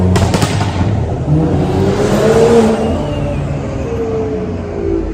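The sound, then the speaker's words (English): A car engine revving while racing downtown: a loud, sustained roar whose pitch climbs as it accelerates, then settles into a steady drone. “It's funny, they think, like, downtown here is, like, the best place to race, apparently.”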